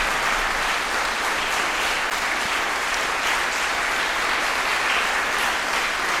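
Steady, dense applause from a concert audience after a performance of Mendelssohn's Rondo Capriccioso in E, holding at an even level throughout without voices or breaks.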